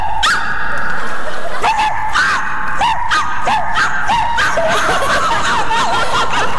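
A person imitates a dog barking for a crying child, giving many quick, yipping barks in a steady, evenly spaced series with no talk between them.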